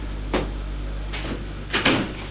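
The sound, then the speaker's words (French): Knocking on a door, heard as a few dull, separate raps spread unevenly across the moment, with the last two close together over a steady low hum and no voices. “Frappe à la porte.”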